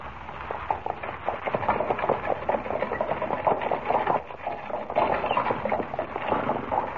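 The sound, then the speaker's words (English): A horse-drawn buckboard wagon ride: a continuous, steady rattling and rumbling that keeps an even loudness throughout, with no voices. “How do you like riding in a buckboard, eh? Sure does buck.”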